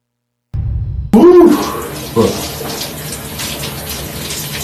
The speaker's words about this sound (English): He's washing his ass.